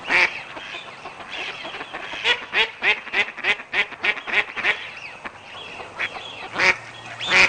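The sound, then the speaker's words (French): Mallard duck quacking: a long, evenly spaced run of many loud, nasal quacks, then a short lull and a few more quacks near the end. “Le canard colvert.”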